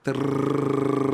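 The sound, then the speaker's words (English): A rolled-tongue trill, a voice imitating a jackhammer, sounds as a short, steady, rapidly pulsing buzz lasting about a second. “The way a kid would produce a jackhammer sound by rolling his tongue,”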